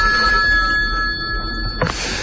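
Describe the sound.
Telephone ring tone on a call to a city council's citizen helpline in Barcelona: a steady, high electronic tone holds for nearly two seconds, then ends in a short click, with no voices.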